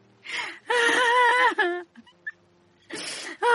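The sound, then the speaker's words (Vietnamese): Women crying and wailing, long loud sobbing wails broken by short gasping breaths, with a fresh wail starting near the end. “Bà Phán khóc trống lên, cô Kim cũng khóc.”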